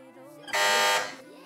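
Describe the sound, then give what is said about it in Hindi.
A quiz-competition buzzer sounds once: a loud, harsh electronic tone that holds steady for about half a second, then cuts off over low background noise. “Buzzer बजाई है Faizan academy वालों ने”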